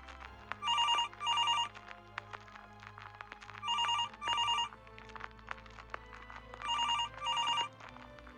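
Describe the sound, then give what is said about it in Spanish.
A phone rings with an incoming call, sounding three double-ring bursts of bright, electronic trilling tone separated by pauses, over a faint low background hum. “Llamada entrante de Rogelio.”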